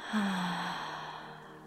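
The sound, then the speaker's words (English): One slow, soft breath from a guided breathing exercise, in through the nose and out through the mouth, swelling briefly near the start and then fading gently away. “And breathe here with me. Breathing in through your nose, breathing out through your mouth,”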